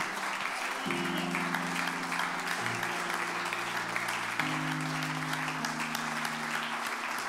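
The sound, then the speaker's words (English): An audience claps their hands during an evening church service. The clapping is steady and continuous, with sustained low organ-like tones beneath the dense patter. “If you want to lay a claim on that promise tonight, just clap your hands unto the Lord and say, thank you, Lord.”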